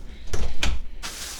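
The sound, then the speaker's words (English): Garage door closing, then someone entering the house: a couple of short thumping door knocks followed by a broader rushing swell of noise, moderately loud, with no talk. “And close the garage door. Now I'm cold. Enter the house.”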